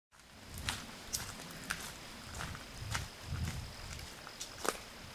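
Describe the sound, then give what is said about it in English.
Footsteps crunch over gravel and fallen leaves outdoors at a steady walking pace, each step a soft, quiet scrunch over a faint, steady background. “as I'm walking on the gravel and the leaves. I love the sound of gravel.”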